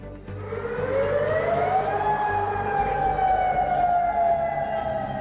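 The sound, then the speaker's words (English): An air raid alert siren sounds during Iranian strikes on US military sites. Its loud, continuous wail rises in pitch over the first couple of seconds, then holds a steady tone, with no talk. “Alerts sound across Kuwait, Bahrain, Qatar and Jordan, where the Iranian army says it targeted US military sites.”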